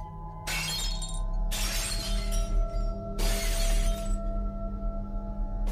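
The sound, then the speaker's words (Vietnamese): Chipped clay bowls hurled about a house corner at night, shattering with three loud, crashing bursts of breaking pottery over a steady low hum, each crash trailing off in clinks. “Mấy cái bát mẻ nêu đất ở góc nhà, nó cũng cầm quăng toán loạn, tạo ra những âm thanh đổ vỡ loảng xoảng trong đêm khuya.”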